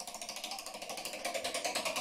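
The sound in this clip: A prize wheel loaded with questions spins in a game, giving off many rapid, evenly spaced clicks in a steady, unbroken rhythm. The ratcheting is moderately loud, with no talk over it.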